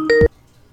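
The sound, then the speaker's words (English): An incoming phone call rings with a brief electronic tone, a short steady-pitched beep with bright harmonics that cuts off abruptly into silence. “somebody's calling. I can't turn it off.”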